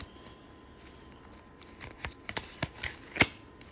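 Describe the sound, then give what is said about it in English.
A deck of oracle cards is shuffled by hand: faint, soft papery riffles and ticks that grow busier and sharper toward the end, with one crisp snap near the close. “I'm going to pull a card from the Wild Offering deck.”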